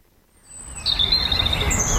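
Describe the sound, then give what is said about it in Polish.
Birds singing in a city park: thin, high whistled phrases over a steady background hiss that begins after a quiet first half-second. “Lubię słuchać ptaków, to jest takie kojące.”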